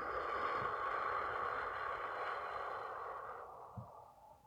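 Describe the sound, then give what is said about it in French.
A slow, soft breath out through the mouth during a relaxation breathing exercise: a steady, faint airy rush that holds for a few seconds and then fades away. “Et une cinquième fois, nous inspirons doucement par le nez. Et nous expirons par la bouche.”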